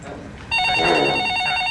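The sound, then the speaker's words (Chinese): Telephone ringing that cuts in at a tense moment while a football match is being followed: an electronic ring with steady high-pitched tones that starts abruptly and continues over background noise. “赶快到关键时候就来电话， 来电话来了，不是时候。”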